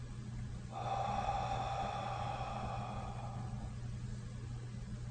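A single slow, deep inhale during a guided breathing exercise, drawn in steadily for about three seconds over a constant low hum, then fading back to the hum alone.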